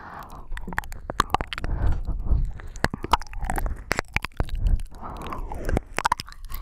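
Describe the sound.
A tongue licking a plastic earbud microphone: a continuous stream of wet, sticky clicks, crackles and squishy dragging sounds, close and irregular, with many sharp snaps over soft rubbing.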